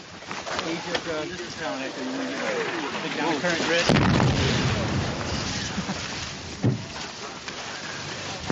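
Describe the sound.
Explosions and gunfire in combat near a river and bridge in Iraq during airstrikes, with one sharp loud blast midway and a smaller crack later, under men talking.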